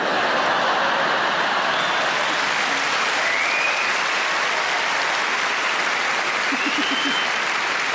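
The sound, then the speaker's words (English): Audience clapping at a stand-up comedy show, a loud, sustained wash of applause that stays level and unbroken for the whole stretch. “And from the clapping, I can tell I'm not the only one.”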